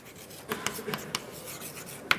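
Handwriting as a term is written out during a lecture on complex transfer coefficients, with faint, dry scratching strokes and a few sharper taps in an irregular rhythm.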